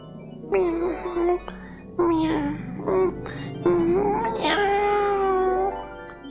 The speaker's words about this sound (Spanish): dando suaves y repetidos maullidos de satisfacción